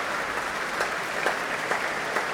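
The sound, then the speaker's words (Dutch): An orchestral concert audience in Amsterdam applauds conductor Fabio Luisi. The clapping is steady and fairly soft, with a few sharper individual claps standing out. “Dat mogen blijken uit dit grote applaus voor Fabio Luisi.”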